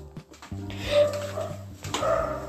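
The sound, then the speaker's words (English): A dog barks several times in quick succession. The barks are moderately loud and have a harsh, tonal quality, with no clear talking over them. “sorry about the barking, if the mic picks that up.”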